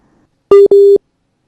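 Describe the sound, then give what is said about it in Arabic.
Telephone busy tone sounding after a call drops on a phone line: two steady, mid-pitched electronic beeps in quick succession, the second longer than the first, with no voices. “ما نعرفش كان مازال معنا بالتليفون ولا لا، فمشكلة صغيرة في التليفون”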